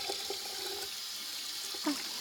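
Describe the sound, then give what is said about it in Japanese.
Water runs from a tap while hands are wetted under it, a faint, steady hiss of flowing water that continues through the whole moment with little change. “僕はこうやって手を水で濡らして”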